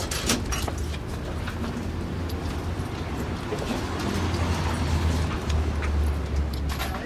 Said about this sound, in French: Et ces bruits, bon, ces bruits, c'est ceux de la ville. C'est-à-dire, c'est l'avion, ce sont les voitures, ce sont les cris, c'est les bruits de verre, de cuillères sur les soucoupes,